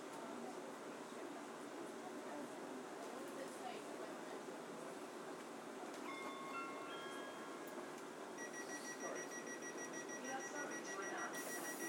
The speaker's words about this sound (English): Is this one going to be a fast train?